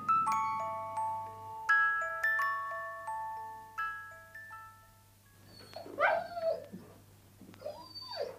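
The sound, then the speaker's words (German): A dog whines and whimpers because it wants to be let out into the yard. Thin, wavering, high-pitched whines rise and fall near the end, after a stretch of tinkling, plucked notes. “Was winselt denn der Hund so? Der will in den Hof.”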